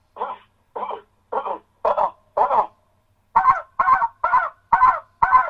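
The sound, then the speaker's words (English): Double clucking calls made from the diaphragm, in two sets of five short, throaty, honking notes separated by a brief pause. The second set is fuller and more resonant than the first. “You got the ikka, and then you got the okay, so all from the diaphragm. Different kind of double clucking, right?”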